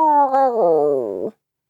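A person imitates a cat's deep, guttural meow with a single drawn-out, throaty yowl lasting just over a second. The yowl wavers and sinks lower in pitch before it cuts off abruptly into silence.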